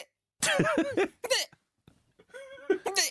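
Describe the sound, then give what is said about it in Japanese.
A person's recorded hiccups come as a few short, voiced, gulping bursts separated by brief silences. “この度、しゃっくりを録音することに成功しました。お送りいたします、ご確認ください。”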